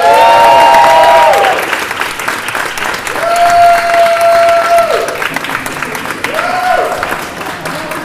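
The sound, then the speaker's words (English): A fan backstage whoops and hollers over loud, steady applause and cheering from a studio audience at a talk show, letting out three drawn-out, high calls in separate bursts while the clapping continues underneath. “You have a fan backstage, I'm guessing. The guy who's whooping and hollering.”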